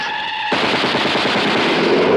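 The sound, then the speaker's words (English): Loud machine-gun fire in a drama scene where a man is shot. A sustained burst of rapid shots begins after a half-second lead-in and rattles on steadily to the end, with no talk. “they shot you. They shot you.”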